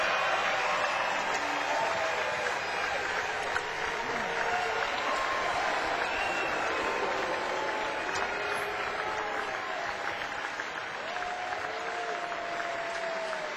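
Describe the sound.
An audience applauds to welcome Bruce Springsteen on stage, dense and sustained clapping from a large crowd with some cheering mixed in, holding an even loudness throughout.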